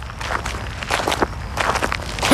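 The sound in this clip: Footsteps of people walking home across a cemetery at night, a steady series of soft crunching steps at a moderate, even pace with no voices.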